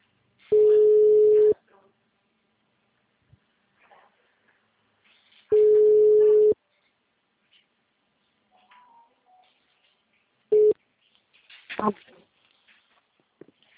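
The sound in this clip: Telephone ringback tone plays while a call is placed: a steady, mid-pitched tone sounds for about a second, then stops during a long silence. It repeats once, and a third tone is cut short before a voice comes on the line.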